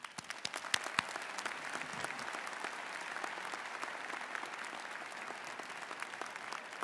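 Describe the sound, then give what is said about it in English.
Applause from the audience welcoming Chancellor Katehi at the UC Davis 2015 Fall Commencement: a steady wash of clapping with no voices, moderately quiet throughout. “Please join me in giving Chancellor Katehi a warm UC Davis welcome.”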